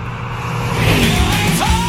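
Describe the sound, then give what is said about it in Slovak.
A car speeding past, its engine roaring as one continuous, loud drone that holds steady for about two seconds, with a tone that climbs slightly near the end. “No a teraz okolo prebehol Speedy s tým svojim autom, strašne rýchlo prefrčal”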